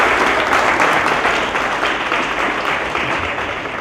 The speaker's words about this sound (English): Evangelist Joshua Bligh, I want you to stand, put hands together as we welcome him